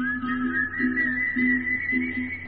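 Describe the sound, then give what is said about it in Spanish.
An eerie, drawn-out whistle, said to come from a ghostly apparition of the Venezuelan plains, holds a steady, slightly wavering high tone throughout over a low, pulsing hum. “Es un alma en pena que recorre la oscuridad con un silbido espeluznante”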